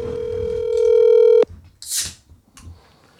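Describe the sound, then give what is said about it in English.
A telephone call is dialed. A steady, loud tone holds for over a second and then cuts off abruptly, followed by a short high beep and a few faint clicks. “Let me call her real quick.”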